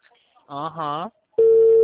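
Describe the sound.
A telephone rings back on an outgoing call placed by a bank employee: a steady, loud, single-pitch tone starts partway through and holds to the end, preceded by a brief harmonic burst.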